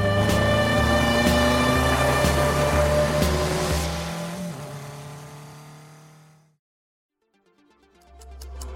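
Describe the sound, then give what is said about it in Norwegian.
A car engine drones loudly and steadily, then fades away to near silence before the engine sound rises again at the very end. “Jeg får kjøre sørover, mot slakteriet.”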